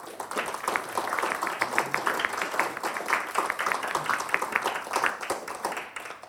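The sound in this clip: Audience applause welcoming an opera singer and an opera music staff pianist at an opera talk: many distinct claps blending into a steady, lively patter.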